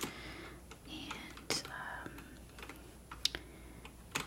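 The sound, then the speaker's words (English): Soft keyboard typing during a retro video game store inventory roleplay, a few scattered crisp clicks over a quiet background with gentle whispering. “I'm just gonna go ahead and type these in as Game Boy, Pokemon”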